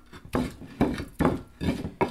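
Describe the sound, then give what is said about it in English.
Grinding of ingredients with about a teaspoon of kosher salt added: five rhythmic scraping strokes at an even pace, each a gritty rasp, heard alone without talk. “She adds about a teaspoon of kosher salt and continues to grind.”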